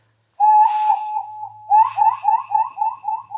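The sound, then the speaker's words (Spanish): A whistled imitation of a nocturnal bird's call, given as a warning signal. One steady, wavering note is followed after a short pause by a longer phrase of quick rising and falling trills. “Le dije que si alguien se acercara, me diera aviso imitando el canto de alguna ave nocturna.”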